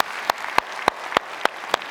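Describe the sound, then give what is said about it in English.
Church audience applause for the online team and a talk: a soft background of clapping with six sharp, evenly spaced claps standing out in a steady rhythm. “And so let's give it up for our online team and the talk Matt gave. Thank you guys so much.”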